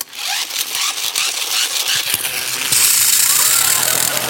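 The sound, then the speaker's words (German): A voice imitating a dentist's drill: harsh, rattling buzz that settles into a steady, piercing high whine over the second half, loud throughout. “Diese Bohrgeräusche, die hören sich seit Jahrzehnten immer gleich an.”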